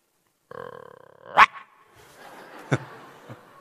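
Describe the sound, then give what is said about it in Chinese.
A human voice imitates a dog: a drawn-out whining tone, then a few sharp, loud barks spaced apart. “不是你唱歌你学狗叫唤干嘛呀？ 这是学狗叫唤吗？”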